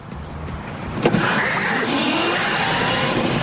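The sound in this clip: An electric junior dragster or electric motorcycle accelerating hard: a loud, steady whirring with a high electric motor whine over broad rushing noise, with a brief sharp knock near the start.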